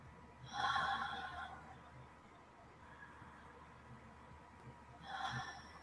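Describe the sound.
Mouth breathing in a guided breathing exercise: two loud, breathy bursts, one near the start and one near the end, with a quiet, soft airy stretch between them.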